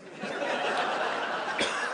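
Coughing and sputtering from someone who got droplets of vodka down the windpipe: a steady, rough, breathy burst of choking sounds, with a sharper hack near the end.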